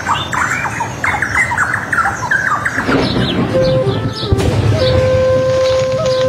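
Birds squawk as they fly, with a quick run of shrill, harsh calls. The calls thin out midway and give way to a steady tone and a low background hum.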